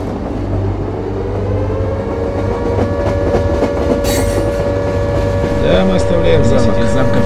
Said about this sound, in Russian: Поезд пойдет через Пискаревку.